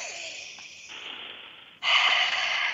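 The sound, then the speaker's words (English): Deep breathing as a group takes a collective breath together: a long, soft rush of air, then a louder, steady breath that holds to the end. “So let's take a collective breath together”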